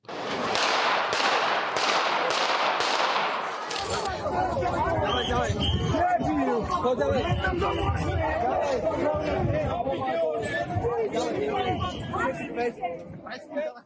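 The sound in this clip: Gunshots in news footage of the shooting of Slovak Prime Minister Robert Fico in the town of Handlova: several sharp, evenly spaced cracks at the start, then loud crowd voices and shouting continue.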